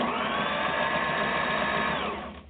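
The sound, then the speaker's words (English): A sewing machine stitches through fabric with its upper thread tension raised, a steady, loud mechanical whir that runs unbroken, then slows and fades as it stops at the end. “and now let's sew again.”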